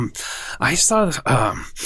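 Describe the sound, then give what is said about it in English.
A man's voice imitates heavy breathing, with a few breathy, groaning huffs and gasps, some of them partly voiced. “So this guy came in one time. He was like, hey, and like he was breathing heavily.”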